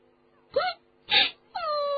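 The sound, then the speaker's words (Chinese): A little girl cries in three short wailing sobs. The last sob is drawn out and steady, and no one talks over it. “他们的小妹妹又哭起来”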